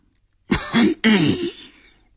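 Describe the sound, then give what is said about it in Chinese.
Two heavy coughs from a stout man, deep throaty bursts in quick succession, separated by a short pause and standing alone against silence. “重重地咳嗽了两声”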